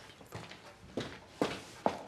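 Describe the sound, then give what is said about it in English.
A woman in heeled shoes walks over to her husband. A few quiet, evenly spaced footsteps sound alone, each a short, soft tap. “She steps over to her husband.”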